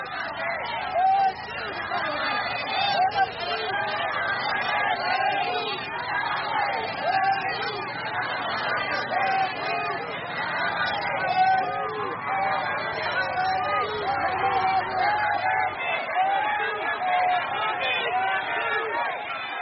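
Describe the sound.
Crowds of people and staff line the road from Naypyidaw airport to welcome Aung San Suu Kyi, filling the air with continuous chatter and hubbub from many voices at a steady level.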